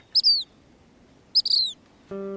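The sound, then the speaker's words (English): A black phoebe gives two short, high, buzzy chirps, each a quick pair of notes, separated by a pause. A steady low harmonic tone enters at the end. “I love the black phoebe. It's probably my favorite bird.”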